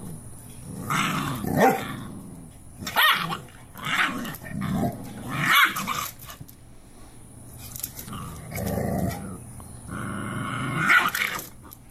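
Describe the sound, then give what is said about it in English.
Mother dog growling and barking while disciplining her puppy: many rough snarling growls and sharp barks come in repeated bursts, with brief quieter gaps between them. “This mama dog disciplining her dog who's”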